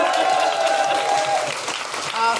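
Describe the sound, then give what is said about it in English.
Audience applause for a producer: a dense, even wash of many hands clapping that holds steady for the whole moment, with a faint tonal sound running through it. “Ladies and gentlemen, a big round of applause for Tom Selinsky, our producer.”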